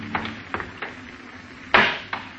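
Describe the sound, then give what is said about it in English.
A hammer smashes glass fruit jars at a sink: a few sharp knocks and clinks, then one loud, bright crash of breaking glass, followed by a smaller clink. “You smash the jars with a hammer and start to pour the fruit down the drain.”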